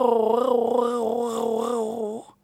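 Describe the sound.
A voice imitates a small black cat's meow in one long, wavering, moderately pitched cry that rises at the end before cutting off.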